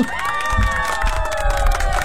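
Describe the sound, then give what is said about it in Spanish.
Crowd cheering and shouting, a dense roar of many voices with held, wavering vocal tones running through it at an even level for about two seconds. “Ese aplauso me lo voy a autodedicar, familia de Radio Disney.”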